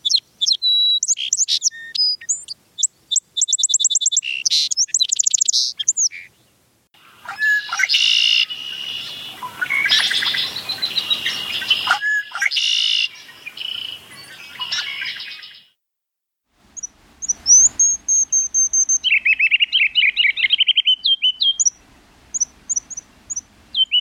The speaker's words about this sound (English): the first sounds were those, they're called seep sounds of the song sparrow